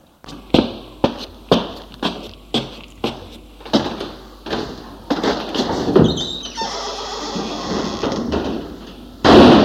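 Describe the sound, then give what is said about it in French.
Window shutters being opened: a long run of regular wooden knocks and thumps, then a rattling scrape, ending in one loud bang. “Puis va à la fenêtre ouvrir les volets.”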